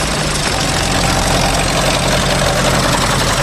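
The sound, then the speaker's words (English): A monster vehicle's heavy engine roars as it drives straight at a wall, a dense, rumbling drone that stays loud and constant throughout, with no talking. “the Chaos Crew are driving their mighty monster straight at the wall”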